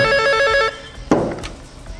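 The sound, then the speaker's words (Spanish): A telephone rings in a bright, trilling burst that stops after less than a second, followed by a sharp clack and a few faint knocks. “¿Un teléfono? Tenemos. Atienda, guarda.”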